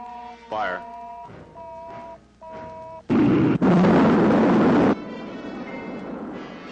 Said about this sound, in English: two, second stage. Fire. Rocket three, second stage. Fire.